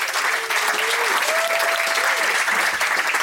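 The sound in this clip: Audience applause welcoming a guest author of an economics book at a live discussion event, dense and steady clapping that stays loud and even throughout.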